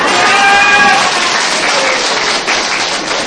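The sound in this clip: Loud, dense audience applause during a Buddhist teacher's talk, a continuous wash of many hands clapping, with a voice briefly audible over its opening.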